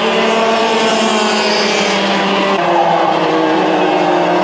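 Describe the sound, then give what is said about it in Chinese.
Engine drone of children's class race cars on a racetrack, a loud, continuous buzzing whine with strong harmonics that shifts in pitch partway through. “当然儿童组的赛车相对于接下来要进行的成人组方面的赛车来说呢，可能在规格方面会有自己独特的一个规格，在速度上可能比成人组的赛车会稍微慢一些。”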